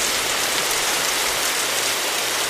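Rain sound effect from a sound effects board: a steady, dense hiss of heavy rainfall, constant in loudness throughout.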